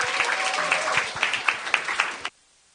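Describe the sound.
Audience applause greets two speakers, steady dense clapping with a few sharper individual claps standing out, cutting off abruptly near the end.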